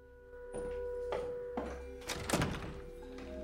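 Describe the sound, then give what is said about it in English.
A door being closed, with a few dull thunks and knocks followed by a louder clattering burst near the end, all over a steady low hum. “She closes the door behind them.”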